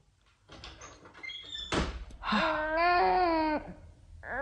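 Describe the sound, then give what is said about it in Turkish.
A door slams shut with a single sharp bang. An infant then cries loudly in long wailing bursts. “Açıkçası kapıyı başımıza çarpıp gitti.”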